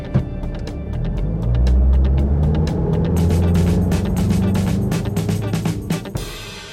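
A car engine accelerating, a steady low rumble that swells and holds loud for several seconds with rattling mechanical ticks on top, then cuts off near the end.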